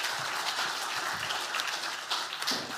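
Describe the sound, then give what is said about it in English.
An audience gives a round of applause to people who came up to the front, with continuous, full clapping from many hands at a fairly even level. “Can you give them a round of applause just for coming up?”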